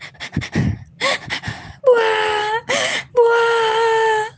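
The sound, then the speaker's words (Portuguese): A voice imitates a cloud crying in a children's story, with short gasping sobs and whimpers, then long, drawn-out wailing moans in a rising and falling tone, loud and alone. “E a nuvem chorou, chorou, chorou.”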